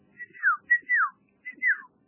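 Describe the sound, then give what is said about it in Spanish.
A person whistles a traditional family signal whistle: three clear phrases, each a short high note followed by a sliding downward glide, with brief pauses between them. “Voy a silbar el silbido típico de mi familia, que viene de mis abuelos.”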